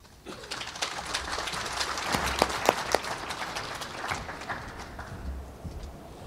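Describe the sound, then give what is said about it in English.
Applause from the audience at a home-building industry breakfast event: many hands clapping that swell in from quiet, hold steady for several seconds, then thin out toward the end. “You're going to hear applause”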